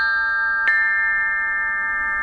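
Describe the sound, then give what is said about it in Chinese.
Ancient Chinese bronze chime bells (bianzhong) ring out as a sustained, bright metallic chord. A single fresh strike near the middle adds a sharp attack, and the tones then hum on evenly to the end. “快来听啊，曾侯乙编钟竟然再次奏响了”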